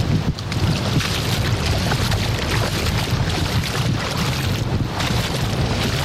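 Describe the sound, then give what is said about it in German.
Wind buffeting over shallow sea water at an island beach, with surf washing around feet standing in the water; a steady, fairly loud rush of gusts and lapping water with no talk. “So, ihr hört das, oder? Vor genau einer Stunde sind wir losgeflogen und jetzt stehe ich mit den Füßen auf der Insel Jüst im Wasser.”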